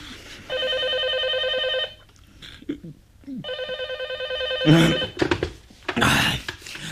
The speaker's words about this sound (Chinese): 直到第二天午后才被持续不断的电话铃声勉强唤醒。